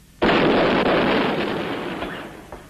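A single loud volley of cavalry gunfire in a film massacre scene, bursting in sharply and fading into a long, slowly decaying roar, with a faint thump near the end.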